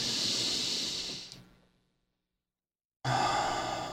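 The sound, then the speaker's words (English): Deep breathing during a standing exercise with the feet on the ground: a loud, rushing breath fades away, a second of silence follows, and then another strong breath starts abruptly. “But having your feet on the ground, inhale as big as possible.”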